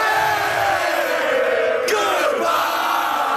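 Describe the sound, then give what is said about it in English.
Hockey fans cheer and yell outside an arena after their team's Game 7 overtime playoff win, a dense, loud, continuous crowd roar with no pauses. “Outside the Buffalo Arena, Habs fans cheered madly.”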